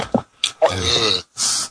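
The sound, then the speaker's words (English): A loud, drawn-out voiced burp with a rough, low tone, set between brief breathy bursts and a hiss. “Burp.”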